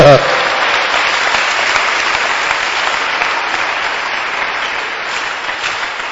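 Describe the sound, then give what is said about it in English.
An audience claps steadily at a religious gathering. The applause starts with a short louder burst, then settles into a continuous, even wash of many hands that fades slightly toward the end. “why don't you clap for Jesus?”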